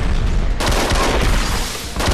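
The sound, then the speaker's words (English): Gunfire in a TV drama scene as agents storm a cellar and a man is shot: a dense, harsh barrage of shots, loud throughout, with a sharper surge partway through. “Jack and Renee storm the cellar. Henry Taylor is shot.”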